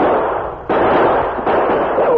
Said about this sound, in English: Both were exposed to the gunfire of the outlaws, who were too distant for accuracy.